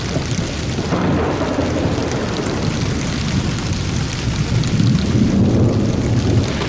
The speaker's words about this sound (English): All of a sudden, it's pouring down rain, if you hear that in the background.